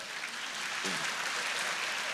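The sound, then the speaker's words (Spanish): Steady applause from a church gathering, a faint, continuous patter of many hands clapping without a break. “Dar un aplauso al Señor por eso.”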